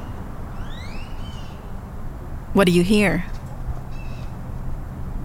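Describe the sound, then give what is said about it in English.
Midday outdoor ambience in Hyde Park, Austin, with a steady low background hum, faint chirps and one loud, harsh bird call in the middle; a voice briefly asks a question. “That's the sound of Hyde Park in the middle of the day.”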